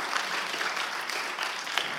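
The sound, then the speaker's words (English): A quiet, even round of applause from an audience at a drawing activity, with many soft claps blending into a continuous patter. “That's a round of applause”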